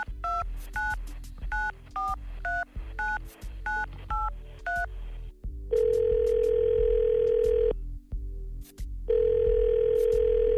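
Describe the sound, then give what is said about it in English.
Telephone tones: a quick run of short touch-tone dialing beeps, then two long steady tones separated by a pause of over a second. “we're going to call that man right now, so let's dial him up.”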